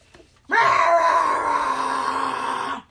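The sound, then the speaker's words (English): A child screams in one long, loud, high-pitched wail that holds steady for about two seconds, with no other sound over it. “One of the children screams out.”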